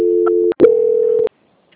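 A steady, loud telephone tone plays while a call is being transferred to another agent. It sounds in two stretches split by a brief break, then cuts off into silence.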